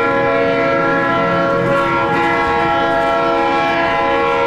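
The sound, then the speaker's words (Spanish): A train passing along a line by Las Américas gives a continuous, loud, steady horn-like blare over a low rumble, unbroken for the whole stretch. “si no es el tren que pasa ahí por las Américas”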